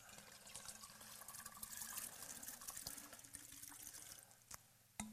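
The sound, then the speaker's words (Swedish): A bottle that was full and capped is emptied, its contents pouring out in a steady rushing, gurgling stream for several seconds. The flow ends in a couple of brief drips or knocks. “Men hvis vi tømmer ut innholdet i flaska,”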